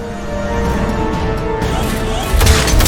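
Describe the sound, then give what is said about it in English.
An escape pod launching from the Normandy spaceship in a video game: a loud, continuous roaring rumble with a sharp burst partway through, then a heavier low boom near the end. “Alright, escape pod's launching.”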